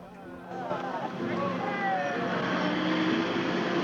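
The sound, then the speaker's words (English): A military truck carrying soldiers and sailors pulls away. Its engine rumble builds after the first half second and then holds as a steady, fairly loud drone, with a faint whining overtone. “the men, some in naval uniform, others in army, climb onto the back of the truck and it drives away.”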